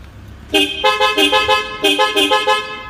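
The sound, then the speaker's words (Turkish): A newly installed car horn with seven switchable tones sounds off in a rapid run of loud, musical honks. Its pitch pattern shifts from burst to burst in a stuttering, melodic sequence. “yeni bir korna taktırdık. Düğmesi var. 7 çeşit korna. Bastığımızda korna değişiyor. Şöyle bir deneyelim, test edelim.”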